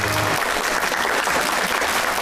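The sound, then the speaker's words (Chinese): Loud, sustained applause from an audience honours a veteran Qinqiang opera performer at a stage tribute. It is a dense, even clatter of clapping that continues without a break, with no speech over it. “我们应该把致敬的掌声送给丁老师，向您致敬”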